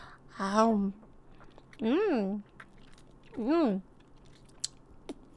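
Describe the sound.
Someone bites into food and chews, with several drawn-out humming vocal sounds followed by soft, faint clicking mouth noises near the end.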